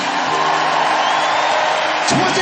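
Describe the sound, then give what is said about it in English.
A concert audience in Harlem applauds and cheers at the end of a song, a loud, unbroken wall of clapping with whoops and yells carried throughout. “Give yourselves a big round of applause, everybody.”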